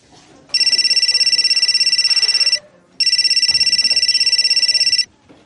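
A ringing tone sounds as a call is placed to a doctor. Two long, loud electronic trills, each about two seconds of rapid pulsing, are separated by a brief gap over a faint background.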